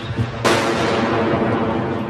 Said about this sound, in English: The mortar bombs kept on falling.